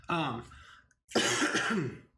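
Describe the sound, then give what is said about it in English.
Two harsh coughing bursts from a person still getting over an illness, each rough and partly voiced, separated by a short silent pause. “So I guess I'll apologize either to you as the viewer or listener if you have to hear us coughing”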